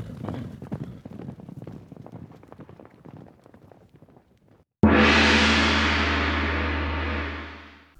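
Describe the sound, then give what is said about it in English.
Milk-white horses gallop, their hooves pounding in a quick, uneven clatter of many beats. The hoofbeats then give way to a sudden loud, sustained roar that slowly fades out. “all the milk-white horses in the stables broke their halters and went mad, and they galloped over everybody”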